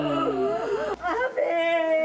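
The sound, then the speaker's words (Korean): Mournful crying wail of a mourning lament, a single voice sobbing in a melodic, wavering line that slides up and down in pitch, with a brief catch of breath midway. “이 울음 소리에 선율이 들어가 있다는 것이 제 인상 깊었던 것 같아요.”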